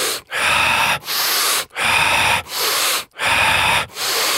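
Fast, deep power breathing, drawn in through the chest and pushed out through the mouth in a circular rhythm. About seven loud, forceful breaths follow one another in a steady, driving pattern, each separated by a brief pause.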